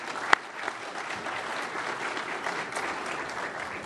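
An audience claps to welcome an expert panel. The applause is steady and moderately soft, with one sharp crack early on among the even patter of many hands.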